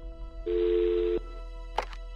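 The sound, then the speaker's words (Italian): A telephone rings on an emergency line in Rome: one buzzing ring tone lasting under a second, steady and fairly loud, followed after a pause by a short click. “Alle 23.41 di quella notte, al 118 di Roma, giunge una telefonata.”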